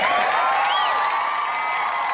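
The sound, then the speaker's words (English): Crowd cheering and whooping, used as an inserted sound effect: a dense, steady roar of voices with a few high rising whoops standing out briefly, holding level for about two seconds. “Insert applause here again.”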